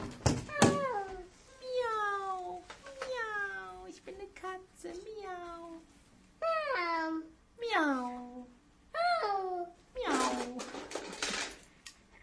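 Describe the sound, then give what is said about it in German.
Cat meows repeat as a string of drawn-out, falling whines separated by short pauses, with a brief click at the start and a breathy noise burst near the end. “Guck mal. Eine Katze. Miau. Miau.”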